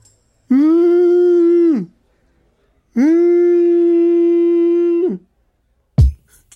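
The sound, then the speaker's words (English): A man's voice imitates a whale call with two long, loud sustained howling tones, the second longer than the first. Each tone holds a steady pitch and drops off at the end, with silence between them and a brief burst afterward. “Because, you know, that was my whale sound.”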